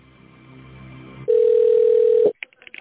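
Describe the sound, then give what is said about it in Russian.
A steady telephone line tone sounds while a call connects, one loud unbroken note lasting about a second after a quieter stretch of low background noise. “на линии соединения с Грецинки Кристиной Сергеевной”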